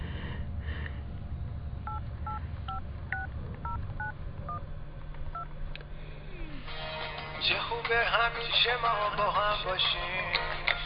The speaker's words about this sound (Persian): یه زنگ بزنم بهش تولدش رو تبریک بگم